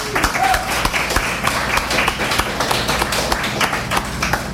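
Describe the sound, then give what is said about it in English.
Applause from an audience at a live show as the second round of performers begins: a dense run of sharp, overlapping claps that holds at an even level throughout. “Let's give yourselves a round for sticking around for round two.”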